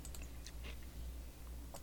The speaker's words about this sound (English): Sorry, I was chewing on an ice cube.